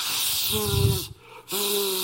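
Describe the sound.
A voice imitates a hiss like something being inflated: two sustained airy hisses with a faint voiced hum beneath, separated by a short pause.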